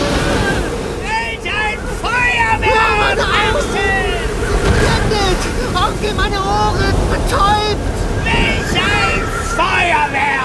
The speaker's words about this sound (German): so entsteht ein Orkan. Das Floß wird in die Höhe gehoben, hüpft auf den Wellen.